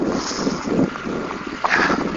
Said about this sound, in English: Maybe getting some wind here.